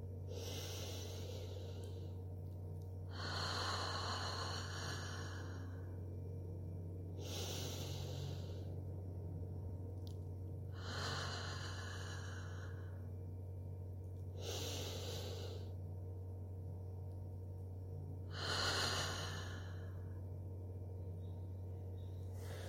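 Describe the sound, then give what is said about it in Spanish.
Slow, deep breathing in a guided relaxation exercise, drawn in through the nose and released through the mouth: a few long, airy breaths with short gaps between them, over a steady low hum and with no talking. “Vamos a realizar 3 respiraciones profundas. Inhala por la nariz y exhala por la boca”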